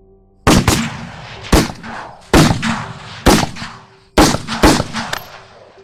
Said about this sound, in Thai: ปืนลูกซองที่บรรจุกระสุนเงินก็ลั่นออกจากปลายกระบอกปืนทั้งหลายกระบอกดังสนั่นราวป่า